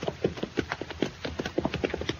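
Horses' hooves clip-clop in a quick, steady rhythm of many soft beats, fairly faint and with no talk over them.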